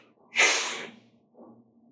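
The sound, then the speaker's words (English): One forceful breath blown out as a loud, breathy whoosh of about half a second, followed by a fainter, softer exhale. “And as we've been teaching, blow, just take that breath.”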